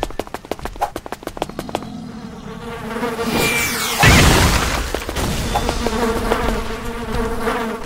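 Buzzing of a giant bee enemy in a video game: a continuous insect-like drone, opened by a rapid run of sharp clicks, with a brief louder burst midway.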